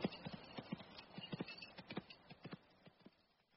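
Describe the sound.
Horses' hooves clip-clop steadily as an army rides out, with many irregular hoof strikes tumbling over one another in a loose, uneven rhythm. The hits fade a little toward the end.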